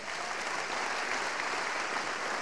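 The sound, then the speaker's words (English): Applause from a church audience during a revival-style sermon: dense, steady clapping from many hands that holds an even loudness for the whole stretch, with no clear voices above it. “Come on, give the Lord a clap, folks.”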